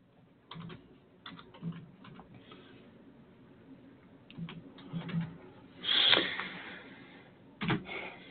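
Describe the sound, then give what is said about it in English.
Fingers type on a computer keyboard, producing faint, irregular bursts of clicks and key taps separated by short pauses, with a few louder strokes and no talking. “I'm just typing this out.”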